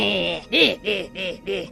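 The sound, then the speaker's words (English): Goblin enemy sound from a video game: a quick run of snickering, chuckle-like voiced bursts, each arching up and down in pitch, with a nasal, mischievous tone. “You will encounter a goblin enemy who sounds like this.”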